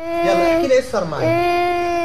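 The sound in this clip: A four-year-old Palestinian girl, bereaved in a rocket strike, cries loudly in a sustained, high, quavering wail. Her cry breaks briefly in a sobbing catch of breath midway, then the wailing resumes.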